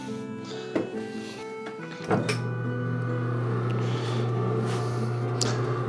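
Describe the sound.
An old tailor's sewing machine with a clutch motor is switched on: two dull clunks, then a steady low electric hum with buzzing overtones that holds at an even level.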